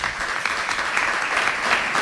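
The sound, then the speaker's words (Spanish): Applause welcoming a guest at an event tied to Seville's religious brotherhoods: dense, steady clapping from many hands throughout, without a break. “Antonio Luis Soto, su hijo, al que recibimos también con un aplauso”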